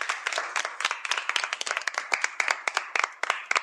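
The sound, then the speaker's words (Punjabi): Audience clapping loudly for schoolchildren after their performance at a school. Many sharp hand claps come in a brisk, irregular rhythm, dense and steady, with no voices. “ਜੀ ਬੱਚਿਓ, ਜ਼ੋਰਦਾਰ ਤਾੜੀਆਂ।”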